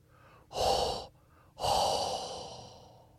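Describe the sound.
Exaggerated heavy breathing blown straight into a microphone: two loud, breathy huffs, a short one followed by a longer exhale that slowly trails off, with no words.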